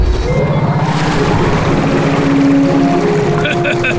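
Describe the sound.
A repaired boat engine runs after being started, giving a loud, steady mechanical drone with humming tones throughout.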